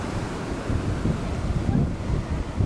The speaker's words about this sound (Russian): Вот так, друзья, стою на собачьем пляже